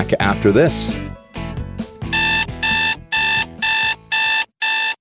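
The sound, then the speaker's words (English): An alarm clock rings in six loud, evenly spaced electronic beeping bursts, each a bright high-pitched trill, coming right after a brief spoken line. “Do you know what that sound is? That's your wake-up call.”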